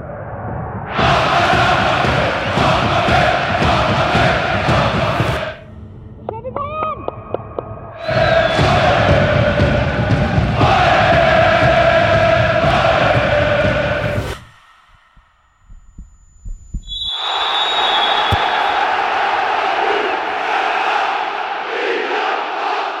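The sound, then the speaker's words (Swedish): A football crowd at a Damallsvenskan women's league match cheers and roars in long, dense swells, broken by a short lull and later a sudden drop to near silence before the noise rises again. “Det är bara hoppas att härliga publikljudet och publikfester i Damallsvenskan fortgår och kanske blir fler då nästa år.”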